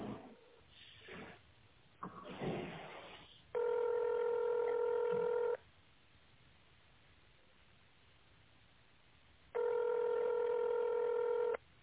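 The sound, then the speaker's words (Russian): Two long, steady touch-tone telephone key tones, each about two seconds with a quiet gap between, dial an extension on a print shop's phone menu over a thin, narrow line, after a few muffled noisy sounds. “Если вы знаете внутренний номер сотрудника, наберите его в тоновом режиме.”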